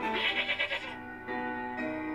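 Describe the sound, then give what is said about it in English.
A goat bleating, a quavering, wavering cry that gives way to a steadier, sustained tone, fairly faint overall. “The goat? Yes, best goat. He comes from far off land.”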